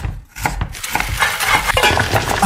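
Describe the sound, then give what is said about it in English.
A spoon stirs instant 3-in-1 coffee mix with water in a cup, making light clinks and scraping swirls that run in a steady, busy rhythm. “Just add water, stir, and enjoy.”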